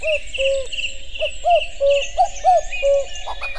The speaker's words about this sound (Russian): Бывает, что кукушка кукует очень ровно, так, ритмично, но иногда она немножко сбивается.